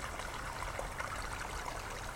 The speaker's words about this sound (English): we can still hear the roar of the main glen water rushing away, hissing through the trees.